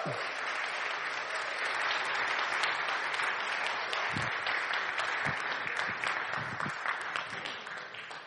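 Faint, steady applause from an audience welcoming a sitting Conservative MP standing as a candidate in the 2017 general election. Even clapping runs throughout and tapers slightly at the end.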